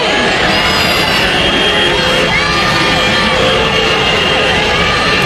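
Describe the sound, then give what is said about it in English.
A crowd of protesters outside the Tennessee State Legislature cheers and shouts after passage of a new state voter map. Many voices blend into a dense, loud, continuous roar with whoops throughout. “That's the sound of a crowd of protesters outside the Tennessee State Legislature after they passed a new state voter map.”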